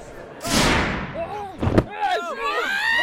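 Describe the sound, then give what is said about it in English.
A gunshot in an audio drama: a loud, broad blast followed by a sharper bang, after which a man's voice speaks. “You fucking shot me, you peasant motherfucker. God damn it, that hurts.”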